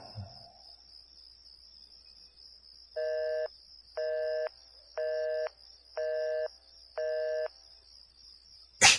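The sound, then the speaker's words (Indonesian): A mobile phone calling a friend rings out with five evenly spaced ringback tones, roughly a second apart, over a faint steady high whine. A short burst of noise comes at the very end. “Aku coba mengeluarkan handphoneku dan menghubungi temanku.”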